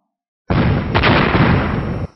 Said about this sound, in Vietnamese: Ba mũi tên còn lại lần lượt nổ tung